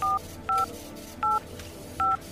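Phone keypad tones sound while two phones are being unlocked: four short, clean dual-tone beeps in an uneven rhythm, with no voices.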